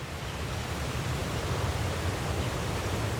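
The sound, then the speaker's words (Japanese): Roaring water from a waterfall on a river, heard while heading upstream, forms a steady, dense wash of noise with no breaks or distinct events. “水が落ちる音、近づくほど大きくなっていく。”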